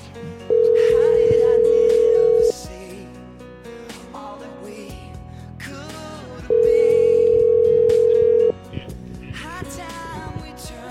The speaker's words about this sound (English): Dialing music, please. Oh, we need some dialing music. I didn't know that you. There we go. That's some dialing music.